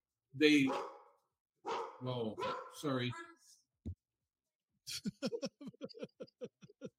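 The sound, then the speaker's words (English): A dog barks in a quick run of many short, sharp yips, loud and rhythmic. Voices or drawn-out vocal sounds come just before it. “You're loud dog barking. Now unmute yourself.”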